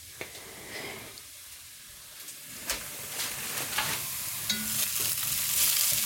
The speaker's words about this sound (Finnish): Alkoi pikkusen täällä ruskistumaan nämä mun sipulit ja sellerit, kun näistä on tietenkin nestettä haihtunut